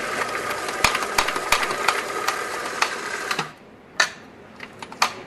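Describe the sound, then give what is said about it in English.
A coffee grinder grinds fresh coffee with a dense, buzzing motor roar and rapid rattling clicks for about three and a half seconds, then cuts off, leaving a few sharp knocks. “And now we need to grind our coffee fresh, because fresh coffee is always better. It's always more vibrant and lively.”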